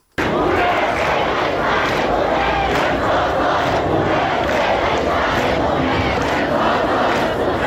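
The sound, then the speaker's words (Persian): Students at Islamic Azad University in Qods chanting slogans against the Islamic Republic's leader at a protest; a loud, dense, continuous roar of many voices shouting together throughout. “در دانشگاه آزاد شهر قدس، دانشگاه محل تحصیل حمیدرضا روحی از کشته شدگان اعتراضات، دانشجویان علیه رهبر جمهوری اسلامی شعار دادند.”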